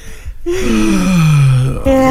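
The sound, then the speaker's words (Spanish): A person imitates a yawn: a quick breath in, then a long drawn-out moan that slides steadily down in pitch for over a second, ending in a short voiced tail. “A ver, ¿cómo será el bostezo? Un bostezo tuyo. Algo así.”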